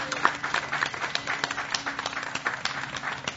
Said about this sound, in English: Let's hear it for Doris. Thank you.